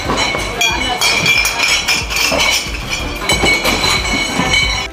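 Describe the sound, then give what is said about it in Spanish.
Glass bottles clink behind the bar counters at Oktoberfest in Munich, a dense run of many bright chinks and knocks going on steadily under a busy wash of voices. “Son ruidos de botellas dentro de los mostradores, no de las carpas, botellas de las que van a beber luego esa cerveza que corre a raudales allí en el Oktoberfest.”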